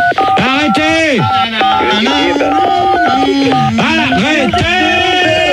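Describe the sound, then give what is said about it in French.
Telephone keypad tones are played as a melody of the French national anthem, with bright electronic notes stepping and gliding in pitch. The sound is loud and continuous, and a person's voice briefly calls out over it. “ils ont qu'à essayer de nous faire un morceau avec leur téléphone.”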